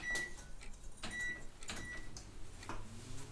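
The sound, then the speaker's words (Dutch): An oven is switched on: a few short electronic beeps mixed with sharp clicks and knocks, fairly faint and spaced irregularly. “Dan zet ik de oven wel even.”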